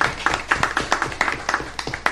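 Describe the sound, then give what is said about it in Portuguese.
A small group claps for civil servants after a project is voted through. The many crisp, separate hand claps fall in a loose, uneven rhythm rather than merging into a roar. “Gostaria que pudesse dar uma salva de palmas para os servidores que estão aqui, para esse projeto que foi votado.”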